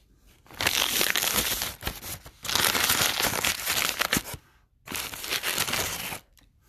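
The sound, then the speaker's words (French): A galette being unwrapped from its crinkly packaging, heard as three long bursts of crackling, tearing rustle separated by short pauses, with no voices. “Ce qu'on fait au départ, c'est qu'on commence par la déballer parce qu'elle est dans un emballage.”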